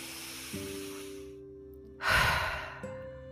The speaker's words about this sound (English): Let's begin by taking a gentle breath in and then releasing it out.